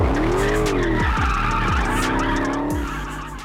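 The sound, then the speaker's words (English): A car drifting on a parking ramp rooftop at an auto show, with squealing tires giving long whining tones over a deep, rumbling engine whose revs drop sharply several times, loud throughout and easing slightly at the end. “One new activity at the show will be drifting on the TCF Center parking ramp rooftop.”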